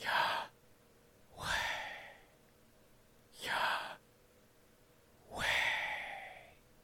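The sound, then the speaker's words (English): Slow whispered breaths alternate between inhale and exhale as a person breathes the name YHWH, with four long airy breath sounds separated by brief pauses. “I want you to say YH with an inhale and a whisper, and WH with an exhale and a whisper.”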